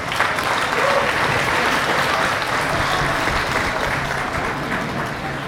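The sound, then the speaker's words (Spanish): An audience applauds a speaker at the inauguration of a national assembly, a thick, sustained wash of clapping that stays strong and even for several seconds before easing slightly at the end. “Un fuerte aplauso para él, por favor.”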